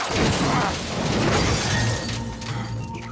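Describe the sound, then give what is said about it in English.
Loud crashing and shattering as a body smashes through a fridge and out through the front of a house, with a burst of breaking debris and clatter that carries on throughout before settling into a lower rumble. “He smashes through the fridge and on out through the front of the house into the street, where he bounces off a couple of cars and comes to rest on a third car.”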